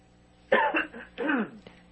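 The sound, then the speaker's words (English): Two short, throaty coughs come in quick succession, the second a little longer, loud against a near-silent background. “I'm going to take the phone away and cough for a second.”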